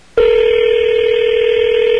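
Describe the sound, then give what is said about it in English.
Telephone tone while a number is being dialed: after a brief quiet moment, one loud, steady, unbroken tone begins and holds without change. “Hello? Hold on. I'm dialing the number up.”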